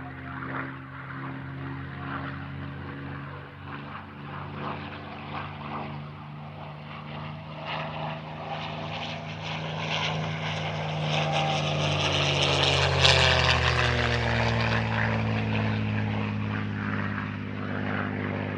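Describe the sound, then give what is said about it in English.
Spitfire propeller aircraft engine droning in a rich, throbbing harmonic tone that grows louder to a peak and then eases slightly, its pitch shifting as it passes. “with that lovely sound of the Spitfire”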